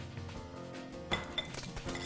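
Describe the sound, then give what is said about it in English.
A tablespoon adds sugar to a French toast casserole dish. A couple of faint, bright clinks of metal on tableware stand out over quiet background noise. “So we're gonna add 2 tablespoons of sugar to our dish.”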